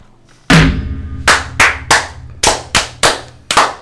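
Masonic lodge members give a ritual 'fire' clapping toast: loud, sharp group claps strike together in a measured, rhythmic series. A first crack opens the sequence, then a run of evenly spaced volleys follows, each ending crisply with no talk over them.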